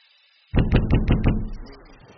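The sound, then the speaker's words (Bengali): Knocking on a bedroom door: five quick, solid thuds in a fast even run after a moment of near silence, then a low fading rumble. “ঘুম ভাঙল দরজা ধাক্কার আওয়াজে।”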